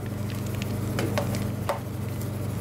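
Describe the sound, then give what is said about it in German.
Freshly churned ice cream is released from an ice cream machine. A steady low motor hum runs underneath soft, wet scraping and squelching sounds. “Schon nach etwa 10 Minuten hat die Maschine ihren Job erledigt. So, und jetzt kommt das Eis raus.”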